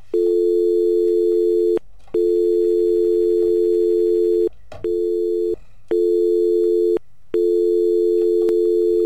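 A telephone busy tone after a call drops: a steady, low, buzzing tone sounding in several long bursts of uneven length, broken by short silent gaps, loud and alone.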